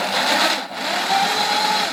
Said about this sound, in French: Peut-être avec un forêt qui coupe, ce serait mieux. Hein, forêt cobalt, 4 mm, un petit coup d'huile de coupe. Et ça devrait aider.